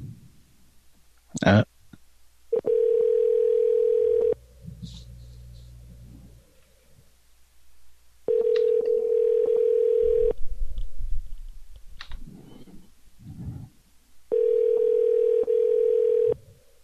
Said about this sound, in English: Should we give him a call back?